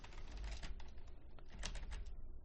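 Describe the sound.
Quiet, rapid keystrokes on a computer keyboard as someone types out a game's name, many soft clicks in an uneven run with a brief pause midway.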